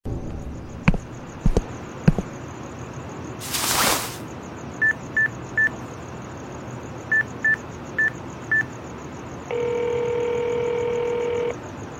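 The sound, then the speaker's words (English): A nighttime telephone call sound effect: a few sharp clicks and a brief whooshing burst, then seven touch-tone dialing beeps in two groups, followed by a steady two-second tone over low background hiss. “Let's see. Nighttime phone call.”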